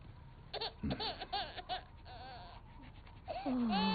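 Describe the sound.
Infant crying and fussing in short, uneven high-pitched bursts, ending in a longer, louder wail.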